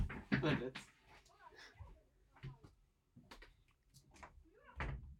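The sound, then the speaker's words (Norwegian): A window being shut during an online chat produces a few knocking thuds and bumps at uneven intervals, with quiet talking between them. “tenk, tenk, tenk. Jeg måtte bare lukke vinduet.”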